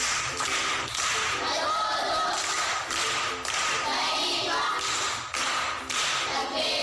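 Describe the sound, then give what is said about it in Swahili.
Rhythmic group clapping for a pupil at a primary school, loud, sharp claps in a repeated pattern with brief regular pauses, continuing throughout. “Makofi kwa shangazi.”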